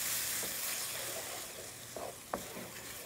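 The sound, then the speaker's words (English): Tomatoes and spices frying in a pan, a steady crackling sizzle that holds throughout at low volume, broken by a few soft scrapes and knocks of stirring. “Stir that around. You want to make sure the tomatoes are in before the spices start to burn.”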